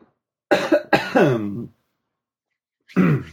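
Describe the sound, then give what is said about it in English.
A person coughs in a quick run of harsh bursts, then one more cough follows alone after a silent pause of over a second. “Let's see if I can get through this without coughing.”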